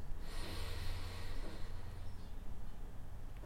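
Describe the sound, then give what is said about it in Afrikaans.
A slow, deep breath is drawn in through the nose: a soft, airy hiss lasting about two seconds before it fades. It is faint against steady background noise, with no speech. “nooi om saam met my lekker diep asem te haal in by jou neus.”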